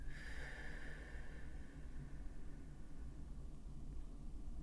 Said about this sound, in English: take another deep breath in. And all the way out.